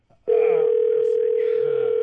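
Steady telephone dial tone as a phone is picked up to dial, a single unbroken tone that starts abruptly and holds loud and even to the end, with no voices over it.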